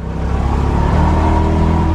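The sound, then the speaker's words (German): An Isetta microcar, the small round car entered from the front, runs its engine in a steady, loud droning rumble with a buzzing harmonic hum that barely changes over two seconds, no voices present. “Allein das Motorgeräusch der Isetta ist unverwechselbar.”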